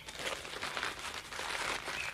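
Faint crinkling and rustling as a packed food bundle is unwrapped, with bread, bacon, hard eggs, sheep's cheese, pancakes and a bottle of kvass inside. The papery scrunching goes on throughout, with no voices.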